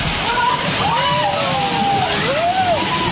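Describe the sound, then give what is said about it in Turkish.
Floodwater rushes into a house in Vietnam, a loud, steady roar of sloshing, churning water that fills the whole clip without a break, with faint wavering tones riding above it. “Vietnam'da ise sel bir eve böyle daldı.”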